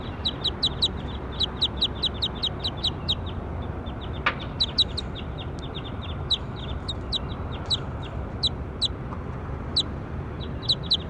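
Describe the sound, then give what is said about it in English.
Bird calls: many short, high, sharp chirps come in quick repeated bursts with brief gaps, sounding clearly over a steady low background rumble and hiss. “That was bird four.”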